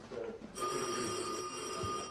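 A telephone bell begins ringing after a moment of quiet murmur, a loud, steady, shrill metallic trill that sustains without a break to the end.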